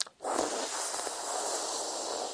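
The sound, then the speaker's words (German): A yogic breath drawn in through a lengthwise-rolled tongue, making a steady, sustained hiss of air that starts suddenly and holds evenly for about two seconds. “Also sauge den Atem ein über die Zunge. Was man im Allgemeinen interpretiert als die Zunge zu einer ja, Rollen. Also so.”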